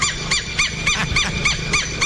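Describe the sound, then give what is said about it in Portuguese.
A southern lapwing calls in a rapid series of harsh, strident, nasal notes. The notes repeat at an even, quick rhythm, several per second, and are loud against a low background rumble. “Olha aí que eu vou botar esse tetréu pra cantar. Canta, tetréu.”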